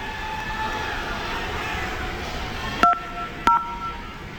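A phone number is dialed for a cash giveaway: two short touch-tone keypad beeps sound in quick succession near the end, after a stretch of steady rumbling background noise.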